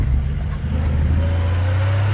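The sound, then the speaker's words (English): A truck engine running on Shell V-Power Nitro Plus Diesel, heard in an advertisement. A deep, steady engine rumble with a low droning hum holds loud and even throughout. “I drive to the laundry. It's 5 minutes before it closes. I'm running out of time and shirts. I take command of the streets. In my truck, Shell V-Power Nitro Plus Diesel.”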